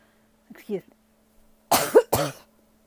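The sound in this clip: Coughing from fumes of chile roasting on a comal: a soft, short cough, then a pause and two harsh, forceful coughs close together, in a quiet setting.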